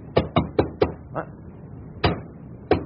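Knocking from inside a cupboard: four quick, hollow raps in an even run, then a faint tap, and later two more separate knocks after a pause. The raps are crisp and moderately loud against a quiet background.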